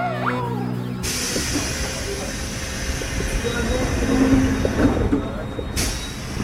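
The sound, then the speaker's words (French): A train bound for Mantes-la-Jolie at Argenteuil station follows a brief chime-like tone with a steady rumble of rolling wheels and carriages and a thin, high wheel squeal. “Argenteuil, ce train a pour destination Mantes-la-Jolie qui desservira toutes les gares d'Argenteuil à Mantes-la-Jolie.”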